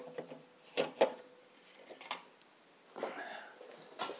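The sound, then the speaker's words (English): Faint wooden knocks and clicks come as a food processor's sharp spinning blade is taken from a cupboard, followed by a brief rubbing rattle of handling before a final light knock. “get the sharp knife spinning blade thing from the cupboard.”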